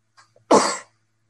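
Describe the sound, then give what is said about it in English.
One sharp sneeze bursts out on its own after a couple of faint catches of breath, then quickly fades to silence. “Sorry, guys, that was a sneeze.”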